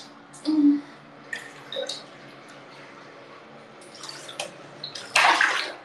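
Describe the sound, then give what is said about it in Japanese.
Bath water drains from a tub, a low, continuous wash of watery noise broken by a few louder gurgling bursts, with the strongest one near the end. “よいしょ、お湯抜きました。”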